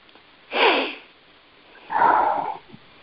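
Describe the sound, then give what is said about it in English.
Deep breathing during a guided healing session, with two separate breaths, a short, airy first one and a longer, fuller second one about a second later, each set apart by near silence. “And 3 nice deep breaths.”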